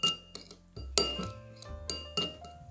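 Ingredients mixed in a kitchen dish, a utensil clinking against glass several times in bright, ringing taps of uneven rhythm, with quiet scraping between them.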